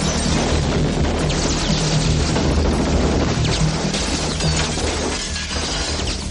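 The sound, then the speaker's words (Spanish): Bullets smash through paper wall panels during an action-film shootout, heard as a dense, loud, continuous stream of crackling, tearing and shattering noise with no pauses. “Mientras atraviesan otra habitación, más tiradores desde fuera destrozan los paneles de papel con sus balas.”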